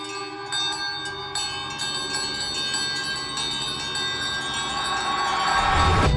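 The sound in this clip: A house servant's bell ringing by itself: a sustained, shimmering metallic tone rich in overtones that carries on steadily throughout, growing slightly louder toward the end.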